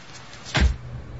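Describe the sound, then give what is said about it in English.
A limousine door shutting: one short, dull, low thud that stands out against a quiet, steady background hum, with nothing else around it. “Manny holds the car door as Frank lowers himself into the limo.”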